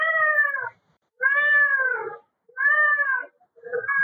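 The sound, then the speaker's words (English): An angry cat yowls in four long, drawn-out meows with short pauses between them. The last meow is cut off, and the cries are loud and strained. “That cat is pissed off.”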